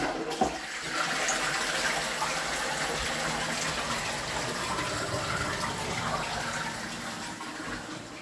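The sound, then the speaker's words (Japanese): A toilet flushes with a rushing gush of water that starts suddenly and runs steadily for about eight seconds, fairly quiet, with no talk over it. “流します。”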